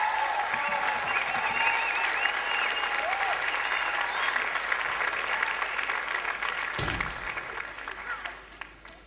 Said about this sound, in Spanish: Marco Flores, un aplauso para el señor.